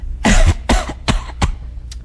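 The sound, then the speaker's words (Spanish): Forced, exaggerated coughing from a man trying to sound like he has bronchitis: a few loud, rough coughs in a row, the later ones shorter and weaker, ending with a faint final cough. “¿Tengo que toser más duro? Claro, chico. Hombre, para que parezca una bronquita, mira a ver.”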